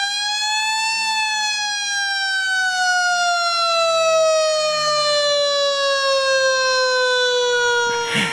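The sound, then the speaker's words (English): A loud wailing siren tone, rich in harmonics, holding briefly and then gliding slowly downward in pitch for about eight seconds, ending with a short burst of noise. “that is the siren of the drive show today”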